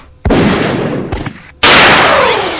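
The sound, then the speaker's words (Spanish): Toy pistol cap gun shots: sharp, loud bangs with ringing tails, two strong ones and a weaker pop between them, with no voices. “doble el disparo para este personaje, obviamente con balas de cebita, con pistolas de juguete, nada en serio”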